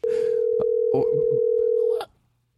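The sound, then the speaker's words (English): A telephone dial tone hums steadily at one pitch for about two seconds while numbers are dialled, with a few short bursts breaking over it, then cuts off abruptly. “What am I doing? I'm dialing numbers?”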